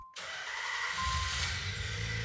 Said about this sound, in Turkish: ama arabayı çalıştırdığımda...